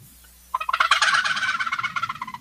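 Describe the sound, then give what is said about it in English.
A reed turkey call imitates the full gobble of a mature long-beard gobbler three or four years old, set slightly too high in pitch with a reed needing loosening. It gives a loud, rapid rattling series of many quick pulses, tapering off at the end. “they have what we think of as a full on turkey gobble. So if I was going to do one of those, that comes across as that,”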